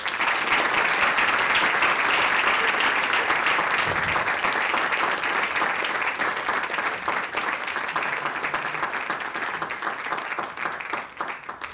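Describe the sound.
Audience applause welcoming Naomi Klein and Ryan Grim at a book talk and conversation: dense, steady clapping holds at full strength for about twelve seconds, then thins slightly toward the end.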